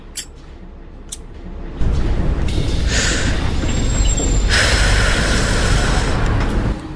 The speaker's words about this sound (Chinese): 756公车进站，本车开往淡江大学。